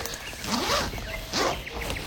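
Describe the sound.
A zipper pulled open on a bag holding a computer, two quick rasping zips in succession over a steady background hiss.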